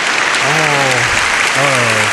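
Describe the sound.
Dense, loud applause fills the whole stretch without a break, with a voice sounding twice over it in two drawn-out bursts.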